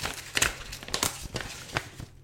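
Gift wrapping being opened, with crisp paper crinkling and rustling in a few sharp, uneven bursts separated by brief quieter moments.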